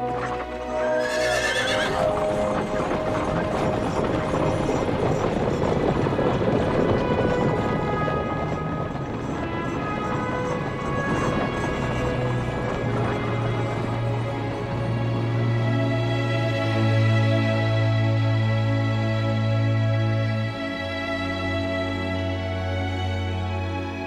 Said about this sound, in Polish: Wejdź do mojego rydwanu. Chodź ze mną.